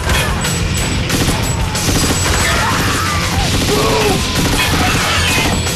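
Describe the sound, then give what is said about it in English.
Gunfire from soldiers shooting at charging mutants as they retreat along a corridor: a dense, continuous volley of loud cracks and crashing impacts with no break. “John and Sarge shoot and keep on shooting as fast as the mutants appear as they retreat along the corridor.”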